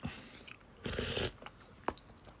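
Someone eating soy sauce ramen, a noisy half-second burst of slurping in the middle surrounded by soft, quiet mouth and chewing sounds, with one brief sharp click near the end.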